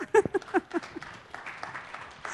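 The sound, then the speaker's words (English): Faint audience applause at a tech presentation, a soft scattered patter of clapping that follows a short burst of voice at the start. “Go ahead, you can clap, it's okay.”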